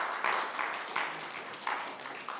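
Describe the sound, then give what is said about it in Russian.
Audience applause in a church, a dense patter of many hands clapping at moderate level, swelling slightly in waves and continuing steadily throughout. “Похлопаем здесь. Un šeit var aplaudēt.”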